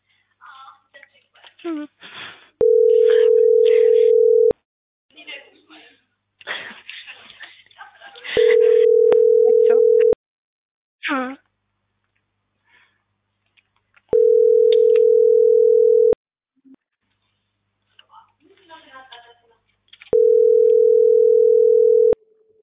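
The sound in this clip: Telephone ringback tone of a call that goes unanswered: four loud, steady tones of about two seconds each, evenly spaced with longer gaps. People talk faintly in the gaps between the tones.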